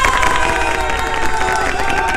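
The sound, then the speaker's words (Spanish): Cheering and applause come from a crowd celebrating, a dense, loud and continuous wash of voices and clapping that holds steady throughout. “¡Un aplauso!”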